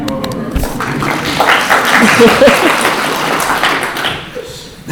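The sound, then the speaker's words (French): An audience applauds, a dense patter of clapping that swells for a few seconds and then thins out toward the end. “On applaudit encore, hein.”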